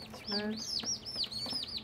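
Turkey poults of a robust breed peep in a pen, giving many quick, high chirps in a busy, overlapping series over a low background hum.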